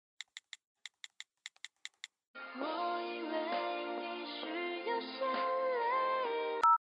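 Telephone keypad beeps on an outgoing call, a quick run of short bright tones, give way to a steady melodic ringing tone that holds for several seconds before ending in a sharp click.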